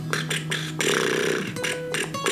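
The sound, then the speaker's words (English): A voice imitating low, slightly wet farts: a few deep, buzzy blown sounds, one of them drawn out longer than the rest, made with the lips alone and without words. “they're like very like low farts. I'm gonna try to imitate them.”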